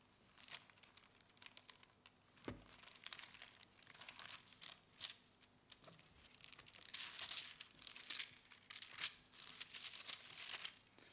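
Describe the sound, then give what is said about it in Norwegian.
Thin Bible pages rustle and crinkle as someone flips through to Second Kings chapter three, with many soft, quick papery sweeps and crackles, fairly faint, growing busier toward the end, with no talking. “Vi kan bla opp her. Vi kan ta oss tid til det. Andre kongebok tre.”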